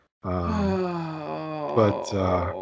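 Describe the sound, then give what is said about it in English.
A long, drawn-out vocal groan, steady and fairly loud, that wavers and breaks briefly near the end before it carries on. “Oh, I'm just going to keep groaning.”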